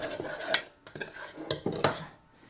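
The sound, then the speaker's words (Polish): A utensil scrapes and clinks against a dish as a mixture is stirred with small movements into a smooth mass. Soft scraping is broken by a few sharper clicks, with no voices. “I też takimi drobnymi ruchami rozprowadzam sobie całość na jednolitą masę.”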